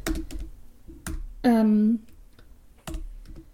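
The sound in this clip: Keys clatter as someone types a quick note on a computer keyboard, with clicks in short bursts at the start and end and a brief voiced sound in between.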